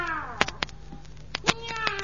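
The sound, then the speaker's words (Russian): A cat meows in drawn-out, wavering cries, with a few sharp clicks or taps scattered between the calls. “Ну, иди, котик, иди. Потом поспишь.”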